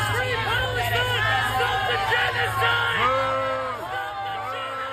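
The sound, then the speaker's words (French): Pro-Palestinian protesters shouting and yelling at a Democratic campaign rally in Harrisburg, a dense, loud din of raised voices that carries on without a break. “Des militants ont crié « Arrêtez le génocide » en brandissant des pancartes et des drapeaux palestiniens.”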